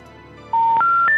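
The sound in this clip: Keypad tones from a landline telephone being dialed: a quick run of loud, steady electronic beeps, each one stepping slightly higher in pitch than the last.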